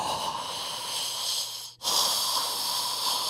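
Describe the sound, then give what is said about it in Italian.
Deep, slow breathing just after waking: two long, airy breaths with a steady hiss, separated by a brief pause. “Sorrido e faccio 10 respiri profondi”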